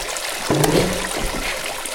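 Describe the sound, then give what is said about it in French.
Water pours as a solid curtain in a video game, making a steady rushing hiss throughout. A short tonal effect comes in near the start. “Comme un rideau d'eau. Un rideau d'eau solide.”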